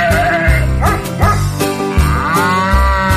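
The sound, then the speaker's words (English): Farm animal calls, with prominent mooing, in a Christmas farm song: loud swooping, drawn-out calls repeat over a rhythmic musical backing with a steady pulsing beat. “Oink, quack, cluck, moo, hee-haw, nay.”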